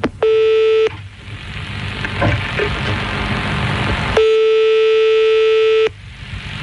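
Ringback tone of a telephone call being dialed. Two steady, pitched rings sound, the first short and the second lasting well over a second, with a stretch of hissing line noise between them.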